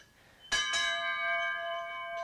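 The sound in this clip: A clock's bell chimes, two quick strikes ringing into a clear, sustained metallic tone that lingers quietly on its own.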